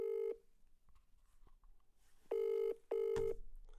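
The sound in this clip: A telephone rings with a steady electronic tone. A short burst at the start is followed by a pause, then two bursts close together form a double ring, with quiet noise between them.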